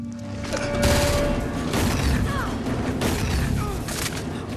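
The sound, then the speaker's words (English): Gunfire from a heavy weapon in a film scene: dense, loud bursts of rapid shots over a continuous low rumble, with several sharper blasts standing out across the few seconds. “Oh, fancy gunplay. Yep. Which he picked up in about 8 seconds, according to the commentary. And that's a heavy weapon.”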